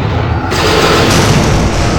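Weapon fire and explosions as a pilot shoots down fighter craft ahead: a loud, dense, continuous roar of blasts with no separate shots standing out.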